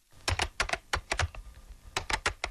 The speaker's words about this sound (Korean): 왕간지는 오른손을 마지막으로 몇 번 더 눌러 안녕이라는 신호를 보내고는 무전기를 끄고 레시바를 벗으며 숨을 후 내쉬었다.